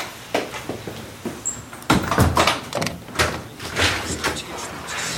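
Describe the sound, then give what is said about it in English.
A door shuts with a single solid thud partway through, among softer knocks and movement sounds. “Shut the door behind”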